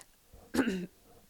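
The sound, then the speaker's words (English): A single cough, a short harsh burst lasting about a third of a second, heard alone between quiet stretches with no talk around it. “Sorry for the coughing.”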